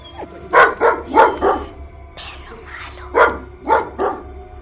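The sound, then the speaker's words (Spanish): A dog barks at a girl, giving two quick runs of sharp, loud barks, four and then three, with a pause between them and no talk. “Winston ladra a la niña.”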